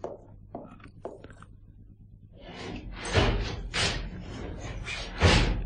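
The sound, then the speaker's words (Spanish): Doors, windows and blinds are shut around a house in a radio-drama scene: a few light knocks and clacks, then several loud, heavy bangs and slams in quick succession. “Dé una vuelta a toda la casa. Cierre todas las puertas, todas las ventanas. Baje las persianas. ¡Hágalo ya!”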